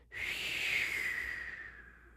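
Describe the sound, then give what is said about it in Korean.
A long, slow exhale through the mouth during a relaxation breathing exercise: a soft, faint breathy rush that starts abruptly and fades gradually over about two seconds. “숨을 길게 내쉬는 거라고 합니다. 코로 천천히 들이마시고 마시고 마시고 마시고 계십니까? 네. 그리고 입으로 더 길게”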